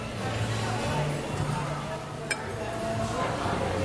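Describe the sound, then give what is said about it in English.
A big steak knife clinks once against a plate in a restaurant, a single sharp metallic tick under a steady murmur of background chatter. “lay it down on its side, And then take this big steak knife that we put in there.”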